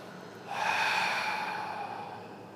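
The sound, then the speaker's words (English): A deep breath exhaled through the mouth during a guided meditation class: a single long, airy exhale begins after a moment of quiet, then slowly fades. “We begin by taking three deep breaths in through the nose, filling your body, and out through the mouth.”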